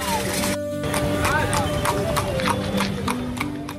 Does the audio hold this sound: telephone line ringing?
no